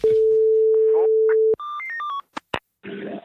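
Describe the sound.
A telephone number is dialed. A steady dial tone cuts off into a quick run of touch-tone beeps, then come two short clicks and a brief burst of rough, static-like noise.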